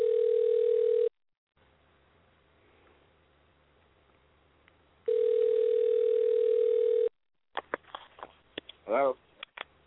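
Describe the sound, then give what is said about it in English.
A telephone dial tone sounds while a call is being dialed: a steady mid-pitched tone, a quiet gap, the same tone again, then a few brief clicks and noises. “Okay, I am dialing.”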